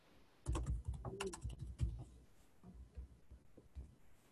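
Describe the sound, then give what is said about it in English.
Computer keyboard typing as a note is written in an editor: rapid clicking keystrokes in dense bursts, louder at first and then fading to lighter, sparser taps. “I'm pulling up the editor again so I can write a note to everybody.”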